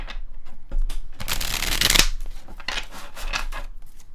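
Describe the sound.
Tarot cards are shuffled and handled as one is drawn from the deck: dense papery riffling and rustling throughout, loudest in a burst near the middle, then lighter flicks.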